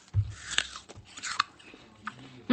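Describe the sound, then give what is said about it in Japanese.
Crisp, faint crunching of bites into a juicy Sanfuji apple from Shinshu that has been sliced horizontally into rounds. A few sharp crunches are spread across the moment, with a louder one at the end. “信州産のリンゴちゃん三富士でーす。 イエイエイ。 今回もですね、スターカットって言ったの、水平方向に輪切りにしてます。 いただきます。”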